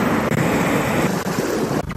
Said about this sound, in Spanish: Así sonaba la tormenta de granizo que se ha registrado allí a primera hora de la mañana.